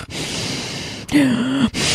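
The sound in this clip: A voice imitates a father's loud heavy breathing on speakerphone: a long raspy inhaled rush, then a low voiced groaning exhale, followed by another harsh breath.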